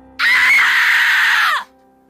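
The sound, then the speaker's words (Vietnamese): A woman screams in horror at the sight of a man's crushed, bruised legs: a single loud, sustained, high-pitched shriek lasting about a second and a half before cutting off. “Một cảnh tượng hãi hùng hiện ra làm cho tôi hoảng hồn, không kiềm được mà đã phải hét lên.”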